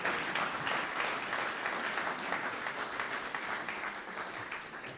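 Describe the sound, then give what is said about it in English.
Applause from a church audience welcoming a speaker to the front: dense, steady clapping that holds at an even level for the whole stretch, with no voices rising above it. “Can we put our hands together and welcome Tim Green?”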